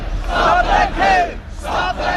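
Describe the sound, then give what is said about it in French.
A crowd chanting in unison at an anti-Brexit rally on the lawns outside Westminster, a few loud, rhythmic shouted phrases separated by short gaps. “Parmi la foule, l'inquiétude est profonde chez les pros comme les anti-Brexit qui voient les politiques s'entre-déchirer”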